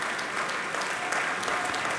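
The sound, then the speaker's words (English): Applause from an audience in Bennett Gordon Hall at Ravinia following a piano recital: dense, steady clapping from many hands that holds at an even level throughout, with no talk over it. “And Olga Kern is back on stage. The audience in Bennett Gordon Hall expressing their appreciation for her beautiful recital this afternoon.”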